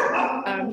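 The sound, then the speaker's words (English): A dog gives a single short, harmonic bark or whine lasting under a second. It is fairly faint, and there is no talking. “Apologies for my dogs.”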